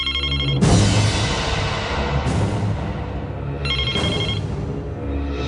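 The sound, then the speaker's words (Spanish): A mobile phone rings at full volume, a loud, bright melodic ringtone whose repeating phrases restart a few times without pause, with no voices. “el celular volvió a sonar a todo volumen.”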